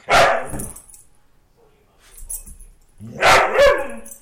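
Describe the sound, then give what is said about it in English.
A lab hound mix dog barks for attention: two loud bursts of barking separated by a quieter gap with faint low sounds. “In Massachusetts, a lab hound mix named Ebony has figured out a way to get the attention of her humans, who seem to be around all the time now.”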